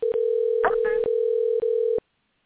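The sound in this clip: A steady telephone dial tone hums while a call is placed. The tone is broken by brief gaps and a short burst of other noise, then it cuts off abruptly after about two seconds.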